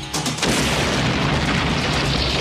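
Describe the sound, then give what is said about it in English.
A bomb explosion bursts with a sudden heavy boom, then rolls on as a loud, dense roaring rumble that stays strong until the end, with no voices. “That was a bomb?”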